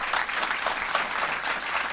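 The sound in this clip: An audience applauding, with dense, steady clapping that stays loud and even throughout and no voices over it.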